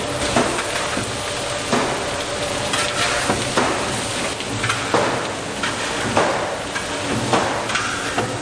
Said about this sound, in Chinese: 这里我给一点豆瓣酱，增加它的风味。